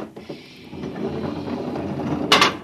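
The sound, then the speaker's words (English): Airlock door opening in a science-fiction radio drama: a steady mechanical whirring rumble builds, then a sharp burst of hissing near the end. “I'll open the airlock.”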